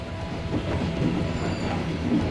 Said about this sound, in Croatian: Steže me u grlu i plućima dok uskačem u gradski vlak koji vozi na sjever, prema Bandri.